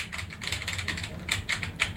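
Typing on a computer keyboard while entering a search word on a web page: many quick, light, irregular keystroke clicks in short clusters, moderately faint, with no voices.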